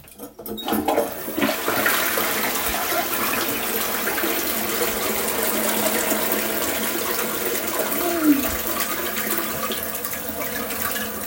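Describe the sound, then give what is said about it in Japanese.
A toilet flushing: a loud, steady rush of water starts almost at once and keeps pouring without a break for about eleven seconds. “流していきます。”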